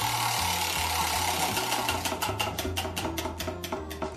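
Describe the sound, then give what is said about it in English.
A spinning prize wheel clicks in a rapid ratcheting blur, then the ticks spread out and slow into distinct clicks as it winds down. A low steady hum runs underneath. “Okay, so let's give the wheel a spin and see what it lands on.”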